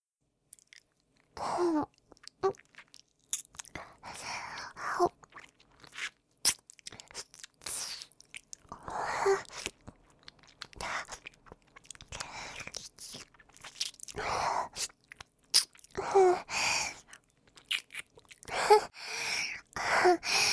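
Crunchy biting and chewing comes in many irregular, fairly quiet bursts of crisp crunches and moist chewing, with short silent pauses between them.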